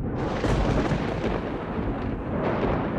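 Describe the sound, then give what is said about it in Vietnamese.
A thunderclap across the sky, a loud, broad rolling rumble with a dense crackling texture that holds steady throughout without a clear break. “Một tiếng sét đánh dọc trên bầu trời”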